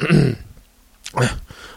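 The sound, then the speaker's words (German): A person clears their throat in two short, rough, rasping bursts separated by a brief pause, alone with no talk. “am Anfang immer noch so dieses ritualisierte Räuspern”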